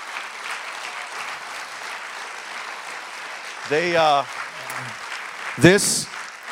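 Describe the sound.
Audience applause welcoming guests up to the front at a gathering: steady, dense clapping runs throughout at an even level, with voices briefly speaking over it toward the end.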